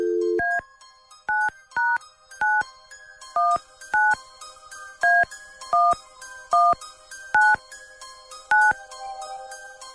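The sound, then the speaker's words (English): Telephone keypad dialing tones from a number punched in at random: a short low dial tone, then about ten crisp, bright two-tone beeps at uneven intervals, each clear and loud against silence. “Stand by 1 second here. Dialing at random.”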